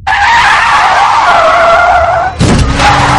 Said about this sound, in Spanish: Frena en seco, da media vuelta y sigue circulando marcha atrás.